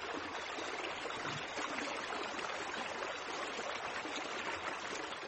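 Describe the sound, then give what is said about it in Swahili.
Steady rushing and gurgling of a dirty stream of the Awash River in Ethiopia's Afar region, a dense, even wash of flowing water with no breaks. “Mkondo huu mchafu kutoka mto Awash wa Ethiopia ndio pekee kuokoa maisha ya wenyeji na chanzo chao kikuu cha maji kwa ajili ya kuoga, kusafisha, kupika na kunywa.”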